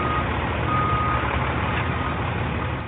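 A reversing truck sounds its backup alarm, a steady, fairly high beep tone over a continuous dense rumble of engine noise, loud throughout.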